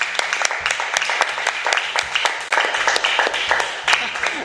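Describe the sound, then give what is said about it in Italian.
Hand claps ring out over a bass-heavy musical backing, many crisp strikes in a loose rhythm at moderate loudness, applauding a video milestone. “quindi un altro applauso”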